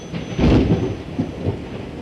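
Thunder from lightning during a storm makes a deep, rolling rumble. It swells to a louder peak early and then keeps up a steady, grumbling roar with a couple of smaller surges.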